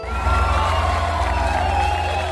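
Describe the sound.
Cheering from a concert audience, a steady, loud crowd roar that holds at an even level for the whole short stretch, with no individual voices standing out.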